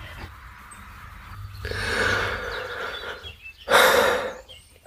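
A deep breath: a drawn-out airy breath followed by a shorter, stronger burst of breath, moderately loud with no talk.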